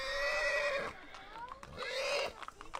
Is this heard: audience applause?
no